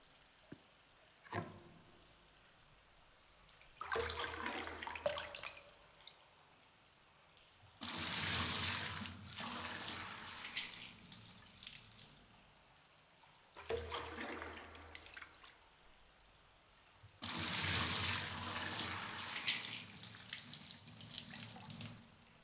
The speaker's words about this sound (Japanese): お湯かけるね。